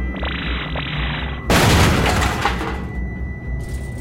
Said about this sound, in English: What's that noise? Sounds like a blaster.